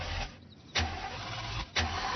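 A car engine being cranked during a repair job, heard as two short, loud bursts of starter noise over a steady rumbling background.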